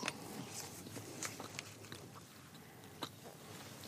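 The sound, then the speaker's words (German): Faint crisp bites and chewing of a plain waffle being taste-tested: several soft crunchy clicks over a quiet steady background, with no talk. “Ich nehme hier schon mal ein kleines Stückchen runter. Die sieht ganz neutral aus, da ist nichts drauf, aber wir gucken mal, wie sie schmeckt.”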